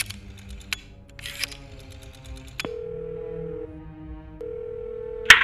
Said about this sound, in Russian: Я бросил в щель 2 гроша и набрал номер человека в красных очках.